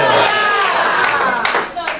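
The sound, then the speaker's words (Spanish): Congregation applause in a church service, a dense wash of clapping that carries on steadily throughout, mixed with voices and tones and easing off slightly near the end. “Dale un aplauso de gloria al Padre, al Hijo y al Espíritu Santo en la tarde de hoy.”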